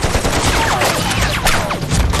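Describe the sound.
Heavy gunfire in a battle: a dense volley of many rapid, overlapping sharp cracks and bursts that stays loud for the whole stretch, with no voices.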